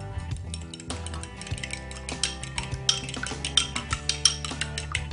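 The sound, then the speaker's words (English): A whisk mixes light cream in a bowl, making quick, faint metallic clinks and taps that pick up toward the end, with soft music playing underneath. “So, now we're gonna add some light cream, just a bit. We're gonna go ahead and whisk that together.”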